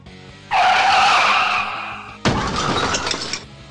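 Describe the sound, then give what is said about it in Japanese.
Car tires screech in a long, loud skid, followed by a sharp impact with shattering and rattling debris as the car hits a person. “うわ、誰か跳ねられた。怖っ。”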